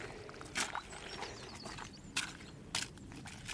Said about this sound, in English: that's the ice on the puddle